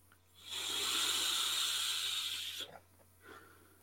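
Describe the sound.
A long, steady hiss of vapour exhaled from an iQOS 2.4 Plus heated tobacco device with a Heets stick, lasting about two seconds, followed by a short, fainter breathy puff.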